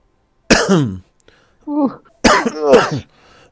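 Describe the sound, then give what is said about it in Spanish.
Coughing performed by a voice for a character during a tabletop role-playing game: a few harsh, rough bursts separated by short silences, the last one longer and broken into two strained hacks. “bueno, Fred tose mucho.”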